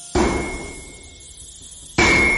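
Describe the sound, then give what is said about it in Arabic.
An emergency door is forced open with two heavy, loud slamming impacts; the first lingers and decays slowly with a sustained metallic ring before the second blow hits. “اكسر باب الطوارئ بسرعة.”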